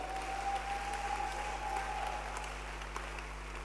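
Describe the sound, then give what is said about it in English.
Congregation clapping hands during a church service: a faint, steady, even patter of many hands that runs the whole time, over a low electrical hum. “Clap your hands for Jesus. the professor of gatherology. Clap your hands for this great man of God.”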